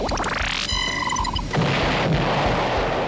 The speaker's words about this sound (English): Time to kick it into overdrive. Afterburners activate.